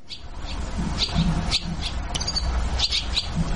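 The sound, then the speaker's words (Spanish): Brown swallows calling: a series of short, high chirps, repeated at irregular intervals over a steady low rumble in the background. “Estamos escuchando a las golondrinas, que cómo las extrañamos. Estamos escuchando a las golondrinas que suelen venir para septiembre.”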